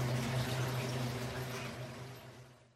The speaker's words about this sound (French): Regarde dans la machine à laver. On voit Doudou qui tourne.